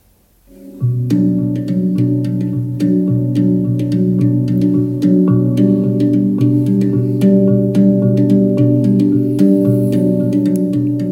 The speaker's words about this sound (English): It's actually an instrument called the handpan,